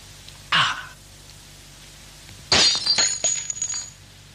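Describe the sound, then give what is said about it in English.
A drinking glass dashed to the ground shatters with a sharp crash followed by a scatter of bright tinkling fragments, after a brief, separate noise a couple of seconds earlier. “Well, really, what a funny thing to do, dashing his glass to the ground like that.”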